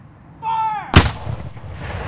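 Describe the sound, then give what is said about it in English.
A single loud cannon blast from a gun crew's firing booms once, then a long rumbling decay follows. A short, high whistle-like tone sounds just before the shot. “And on the command ready, we'll step back and wait for the cannon to go off.”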